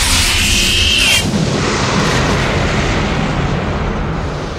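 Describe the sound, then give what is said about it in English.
A black Cadillac explodes in a film scene. A loud, broad blast with a brief high whine at the start gives way to a long, heavy rumble that slowly fades. “This black Cadillac explodes really quickly.”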